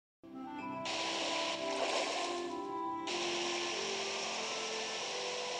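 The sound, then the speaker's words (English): Watery swishing as lotus leaves are picked up from a river in a Chinese online game during a Dragon Boat Festival event: a sudden onset, then a steady rushing wash with a faint tonal hum that shifts slightly midway. “This is the sound of picking up lotus leaves in a river. The leaves will be used to wrap up the rice to make rice dumplings. It is a traditional custom to celebrate the Dragon Boat Festival in Most Wood, which is a popular online game in China.”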